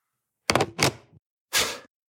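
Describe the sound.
A tape player's play button pressed: three hard mechanical thunks, two close together and a third after a short pause, each a dull, muffled clunk with no voices.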